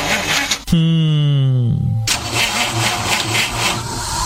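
A car engine starts on a street: the starter cranks for about a second with a whirring whine, then the engine catches and settles into a loud, steady running rumble.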